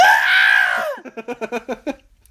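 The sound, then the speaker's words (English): A human voice imitates a blood-curdling scream with a loud, high, sustained shriek lasting about a second, then breaks into a string of short, choppy laughing bursts. “There was a thud, and then there was a scream. Oh, Jesus. That I can only describe as blood-curdling. It sounded like,”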